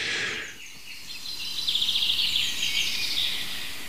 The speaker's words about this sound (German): Und viele schöne andere Vögel nutzen diese bewölkte, verhangene Morgenstunde, um der Welt zu sagen, wer sie sind.